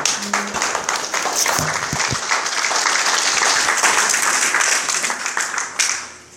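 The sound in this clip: An audience applauds as a guest speaker from Huntington Beach is welcomed at an evening meeting. The crackling clapping stays dense and fairly even, then thins out and fades at the end.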